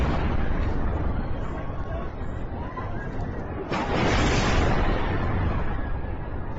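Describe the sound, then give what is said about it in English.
Bombing of a hospital in Iran comes through as a dense, loud, continuous roar of blast noise, with a sharper surge partway through that stays heavy to the end. “Let's check out this footage. New released of a hospital getting bombed. This is in Iran.”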